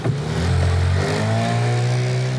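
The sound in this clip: Steady engine drone of a small boat heading out across the Naardermeer with a reed cutter, a loud, even, low humming rumble with layered harmonic tones held throughout, no voices.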